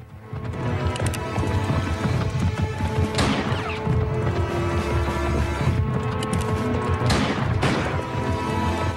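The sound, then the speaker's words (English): A horse gallops off through trees. Rapid, driving hoofbeats pound steadily and loudly throughout. “Cleary, knelt beside Stanton's body, watches alarmed as Jim leaps onto Stanton's horse and gallops off through the trees.”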